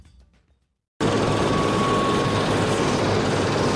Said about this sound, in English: That's the sound of a helicopter taking off from Esbjerg Airport on Danish Jutland Peninsula's west coast.